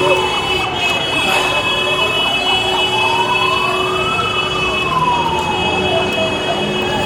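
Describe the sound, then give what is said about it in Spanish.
An emergency vehicle siren wails during street unrest in El Alto, where police fire tear gas at youths. Its tone sweeps slowly up and down, loud and continuous over a dense, steady roar of background noise. “Es lo que ocurre a esta hora de la mañana, el audio ambiente, prácticamente sirenas, silencio,”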